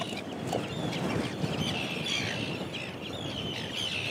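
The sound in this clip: Chirping from an Arctic tern chick while it is being weighed: many quick, high chirps repeat over a steady, noisy background throughout.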